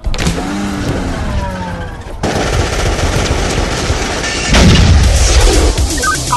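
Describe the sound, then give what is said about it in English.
Loud, rapid bursts of automatic gunfire in a shootout, a sustained rattling volley that cuts off sharply near two seconds before heavier, booming fire resumes. “We have an ongoing shootout at 24th and North 23.”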